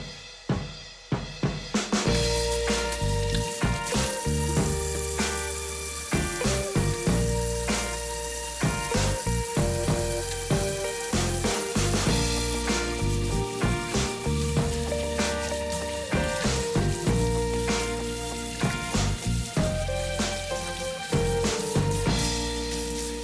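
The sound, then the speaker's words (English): Ice clinking and crackling as 40ml each of Campari and sweet vermouth are stirred with a large ice cube in a tumbler: many rapid, sharp clinks over a steady fizzing crackle, heard alone without talk. “There, that was me stirring 40ml of Campari and 40ml of sweet vermouth in a tumbler with a large cube”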